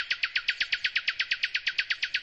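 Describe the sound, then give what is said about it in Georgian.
Nightingale singing a rapid, evenly spaced run of many identical high chirps, clear and regular, sustained without pause for the whole stretch. “აი, ეს ბულბულია, თქვა გოგონამ, უსმინეთ, უსმინეთ”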